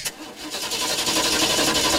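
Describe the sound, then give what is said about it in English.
A car engine struggling to start in cold weather cranks with a rapid pulsing whir, then catches and builds into a steady, rough-running roar. “With the cooler weather setting in, it's possible that you might find your vehicle is a bit hard to start. If that is the case, probably your battery is on its way out.”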